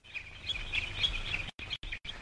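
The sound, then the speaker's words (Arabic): Bird calls, meant as the cooing of a dove kept as a gift, come as steady high chirping for about a second and a half, then break into three short bursts. “الله، ما أجمل هديل هذه الحمامة.”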